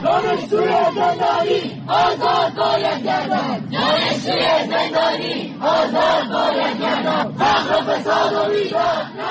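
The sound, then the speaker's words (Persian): University students chant in unison at nationwide street protests against the government in Iran, a loud crowd repeating rhythmic slogans in steady bursts with brief gaps between phrases. “این صدای دانشجویانی است که در اعتراضات سراسری مردم علیه حکومت جمهوری اسلامی در صفحه اول معترضان قرار گرفتند.”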